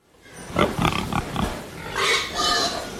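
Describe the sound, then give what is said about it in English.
Market-ready hogs grunt and squeal in a barn holding about a thousand head on a hog farm. Loud, rhythmic grunts come first, then longer, sustained squeals. “I've been farming hogs for 23 years. Basically, I've raised hogs all my life. In this barn, I've got about 1,000 head. And they're market-ready hogs, and they're definitely ready to go to market.”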